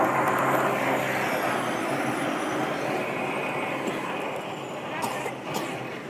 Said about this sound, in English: It's the sound of a snowplow attached to a garbage truck. There's two of them going by. Three. Four.